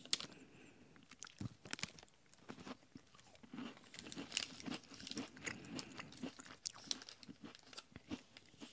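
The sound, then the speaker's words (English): Crisp crunching and chewing of a cocoa waffle: many sharp, irregular bites and chews follow one another in an uneven rhythm, fairly loud against a quiet background, with no talking. “let's try the cocoa waffle”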